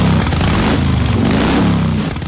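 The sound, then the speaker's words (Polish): A motorcycle engine runs with a loud, rough, continuous rumble and a broad roar above it. The pitch wavers slightly throughout, with no talk. “Kobiety ciągnie teraz na motocykl.”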